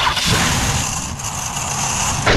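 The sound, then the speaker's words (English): An old clunker car's engine runs, a loud, steady, rough rumble that holds unbroken throughout with no voices over it. “Well, that sounds expensive. Nope, that's the sound of your car begging for retirement.”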